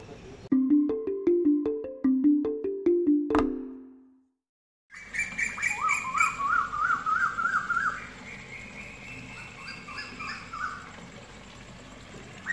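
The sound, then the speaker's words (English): Birds calling in a tree outside a hotel room on Koh Samui, first a rapid, regular, toy-like piping series, then a pause, then busier chirps and warbling trills. “That's the sound of birds in a tree outside our hotel room in Koh Samui. Sounds like a toy.”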